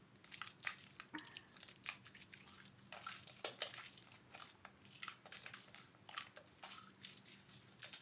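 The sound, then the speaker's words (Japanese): Hands wash and massage the body with water, making many faint, irregular wet rubs, squelches and small splashes that run steadily throughout at low volume. “次は体をマッサージしながら洗っていきます。丁寧に洗うためにボディタオルではなく手できれいに洗っていきますね。”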